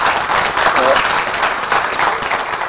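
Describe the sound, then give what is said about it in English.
Audience applause: dense, steady clapping fills the whole short stretch at an even loudness, with a voice mixed in. “wish he was here to hear that applause”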